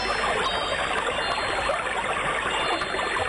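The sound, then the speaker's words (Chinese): Flowing water makes a steady, even hiss of rushing noise that holds at a constant level from start to end, with no pauses and no voices. “这是水流的声音，”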